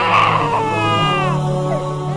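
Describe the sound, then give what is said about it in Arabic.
A baby cries in pain: a loud, sustained, high-pitched wail with a wavering, strained voice, carried over a steady low background hum. “صورة طفل لا يدرك للحياة معنى لكنه يصرخ ألما”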